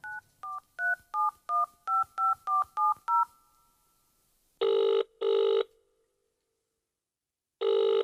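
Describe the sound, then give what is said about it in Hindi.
Telephone keypad tones as a number is dialed: ten quick, evenly spaced beeps of varying pitch, followed by three long, loud ringing tones separated by pauses. “Dial करके देखिबा”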